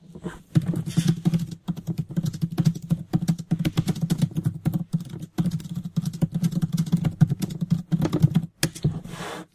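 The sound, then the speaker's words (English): Rapid typing on a computer keyboard as chat answers are entered: many quick, crisp keystrokes in a steady, uneven patter, broken by a few short pauses. “We're just going to, I'm just type chatting some answers here.”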